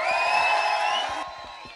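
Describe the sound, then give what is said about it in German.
An audience at a live band concert cheers and whoops after a song. A bright, dense crowd roar with high vocal shouts holds loud for about a second, then eases slightly, while low thumps sound underneath. “Nochmal einen dicken, fetten Applaus für diesen tollen Song.”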